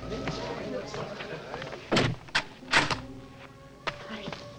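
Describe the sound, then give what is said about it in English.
A door being shut and locked, with a few sharp knocks and thuds standing out over a low, steady background. “She quickly lets him in and locks the door.”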